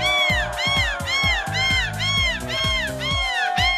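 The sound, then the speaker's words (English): A person imitates a seagull squawk in a carnival competition at Dunkirk Carnival in France, giving many rapid, repeated high nasal cries with arching pitch, each rising then falling, in a steady rhythm. “This competition at Dunkirk Carnival in France is all about finding the most convincing seagull squawk.”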